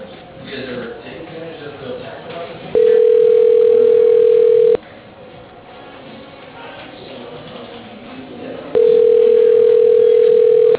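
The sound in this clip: Telephone line tone while a call is transferred to voicemail: two long, steady, mid-pitched tones, each about two seconds, sounding loud and even over a low background murmur.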